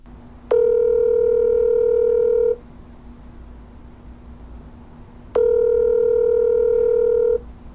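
A telephone line tone sounds while a call is being placed: two long, steady, buzzy tones of about two seconds each, separated by a pause, over a faint low hum.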